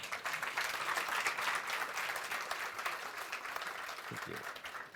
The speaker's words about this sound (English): In this talk, they will present the case studies of welfare automation from India, Serbia, and Denmark, based on research by Amnesty International. Let's give them a warm welcome.